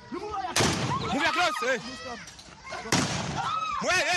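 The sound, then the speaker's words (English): Gunfire from armed men shooting into the air in Cameroon comes in two loud, sharp clusters of cracking shots, with voices shouting between and beneath them. “Armed men shoot indiscriminately in the air while ordering about 15 children dressed in school uniforms to strip naked. The audio is extracted from a video shared by Cameroon”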